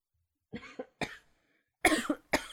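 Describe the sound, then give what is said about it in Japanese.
A choking cough comes in several harsh, raspy bursts separated by short gaps, the later ones louder and fuller, with no talk over them. “失礼しました。あまりにしつこいのでむせてしまいました。”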